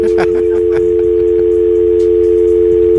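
A telephone dial tone after a call is hung up, a loud, steady, unbroken hum that holds at one pitch throughout, with faint clicks and crackle beneath it.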